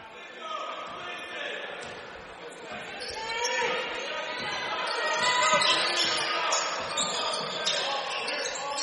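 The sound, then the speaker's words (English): A basketball dribbled on the court during a high school boys' game between Kenyon-Wanamingo and NRHEG, with repeated bounces under steady crowd chatter throughout. “Aldorfer dribbles top of the key for Kenyon Wanamingo, moving left to right on your radio dial.”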